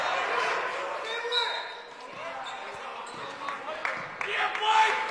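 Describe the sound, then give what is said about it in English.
Basketball dribbled on a court during a game: dull, repeated ball bounces running steadily under a commentator's continuous talk. “Dribbles it around, parades it around, gives it over to Rotschke, who's looking to put up a shot, but dribbles it back out.”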